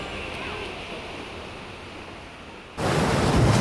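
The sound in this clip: Ocean surf washes onto the sand at Pendine Beach as a broad, rushing hiss. It slowly eases off, then swells abruptly into a louder surge near the end.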